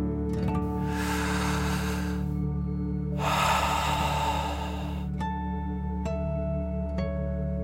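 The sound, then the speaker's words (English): Deep breathing in and out in a guided dragon-breath exercise: two long, airy breaths, the second louder and longer, over steady sustained musical tones that continue after the breaths, with no voices. “let's take three more deep dragon breaths. Deep breath in and out.”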